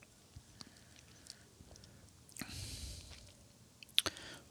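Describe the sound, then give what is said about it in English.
Soft, wet swishing and squishing as a sip of Four Roses bourbon is held and moved around in the mouth in a Kentucky Chew. The sounds are faint and sparse, with small clicks and a louder wet burst near the end. “So it's funny you say that because I did a little Kentucky Chew on that one. Yeah. Where I held it in my mouth a minute and kind of swished it around before I drank it.”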